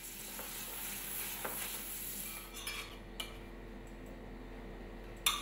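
Spring onions and gnocchi sizzle softly in butter as they are tossed in a pan. A faint, steady frying hiss is broken by a few light clinks of utensils.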